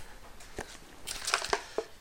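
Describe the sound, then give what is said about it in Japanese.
Crinkly plastic rustling as a cup noodle's dry-ingredient and powdered soup sachets are handled, a few short, faint crackles and crunches spread across the moment. “なんか袋が入ってるぞこれ火薬と粉末スープが入ってるね”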